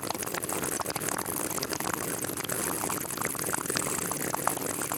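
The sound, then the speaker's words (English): A man gurgles water in his mouth to imitate the bubbling of a bong being smoked. The wet, hissing gurgle runs continuously at an even level the whole time, with no talk. “I was just putting water in my mouth and making it sound like I was smoking a bong.”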